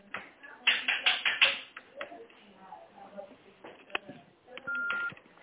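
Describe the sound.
Connecting tones on a telephone line as an office call is transferred to accounting: a run of thin clicks and short tone bursts, then one steady beep near the end, all narrowband and phone-filtered.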